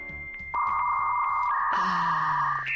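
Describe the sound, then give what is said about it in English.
A dial-up modem connects to the internet over a telephone line: a steady, loud electronic tone starts after a low murmur, then a denser, buzzing hiss and warbling tones join it and continue to the end. “That's the sound of a computer trying to connect to the internet over a telephone line.”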